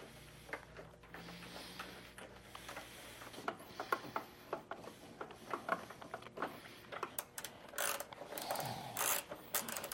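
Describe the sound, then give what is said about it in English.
Ratchet clicks as inner and outer motorcycle fairing bolts are tightened: many faint, dry ticking clicks in uneven runs, growing denser and a little louder toward the end. “we're going to go ahead and put the fairing bolts in. Remember, long one at the top, long one at the bottom, short one in the middle here.”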